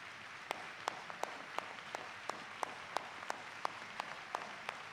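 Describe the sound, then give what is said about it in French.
Congregation rising and applauding at a church service: a faint, continuous patter of many hands clapping, with sharper, louder claps recurring at a regular pace. “L'Assemblée s'élève pour acclamer.”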